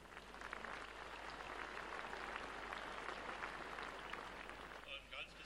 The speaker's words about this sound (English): Well, I think they deserve an applause.